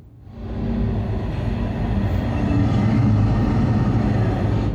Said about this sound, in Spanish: Deberíamos bajarnos del tren ahora.